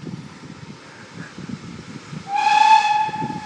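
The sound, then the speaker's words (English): A steam whistle from locomotive 73129 pulling a Santa Special train in the Golden Valley near Ripley, Derbyshire: one long, steady, fairly loud blast over a low rumbling of the train, then slowly fading. “We're back with the train again.”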